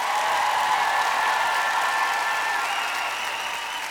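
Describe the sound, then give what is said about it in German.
Audience applause welcoming a performer at a musical concert: dense, steady clapping that lasts about four seconds and eases slightly toward the end. “einen großen Applaus für Pia Dauwes”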